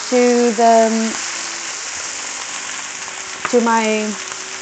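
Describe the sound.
Defrosted spinach and onion sizzle in a pan, a steady crackling hiss that runs through the whole clip, with two short bursts of tonal sound rising above it.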